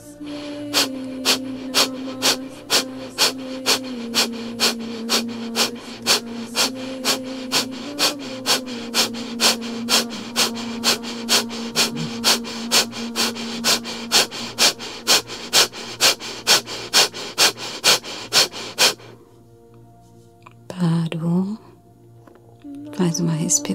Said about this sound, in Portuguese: de respirações fortes e vigorosas. Inspira o abdômen vai para fora, expira o abdômen vai para dentro. Forte e vigoroso.